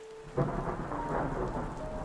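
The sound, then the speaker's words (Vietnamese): Heavy rain pours down in a thunderstorm, a dense, roaring wash of drops with a deep rumble of thunder that swells suddenly and holds loud throughout. “bỗng dưng trời mưa ngày thêm nặng hạt, trút xuống ào ào như thác đổ, làm cho không gian mờ mịt hẳn đi.”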